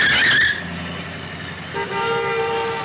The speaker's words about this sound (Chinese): look out for that car!